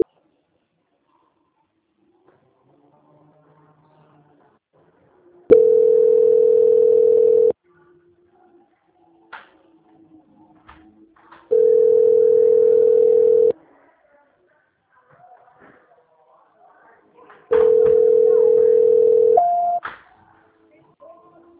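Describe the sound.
Telephone tone during a call transfer: three long, steady mid-pitched beeps of about two seconds each, spaced several seconds apart, with faint handling noises in the gaps.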